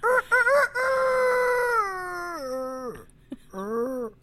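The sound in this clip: A voice imitates a rooster crowing: a few short clipped calls, then a long drawn-out note that falls in pitch in steps before breaking off, and one brief final call.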